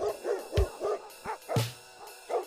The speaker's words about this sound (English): Like, give it to me. Dog solo, beware.